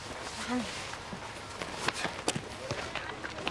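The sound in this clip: Faint footsteps of someone running up and down a staircase, a quick, irregular patter of light thumps, with a few sharper steps standing out.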